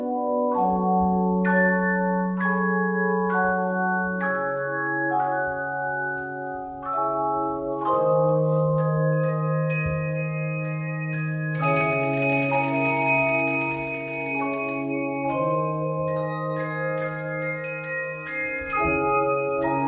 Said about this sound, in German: Aber das macht der Handglockenchor durch die Vielfalt der Klänge wett, die er zaubern kann.